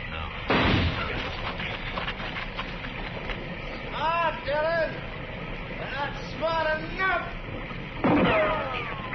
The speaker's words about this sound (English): I'm going to flip a shot at the tree, Chester. Roll away as soon as I fire.